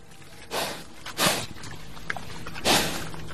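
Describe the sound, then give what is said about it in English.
Sows and piglets grunting and rummaging in an outdoor enclosure on a tiny organic farm in Mingo County, southern West Virginia: three breathy, snorting bursts with soft shuffling and rustling between them. “A couple of sows and piglets grunt and rummage through an outdoor enclosure at a tiny organic farm in Mingo County, southern West Virginia.”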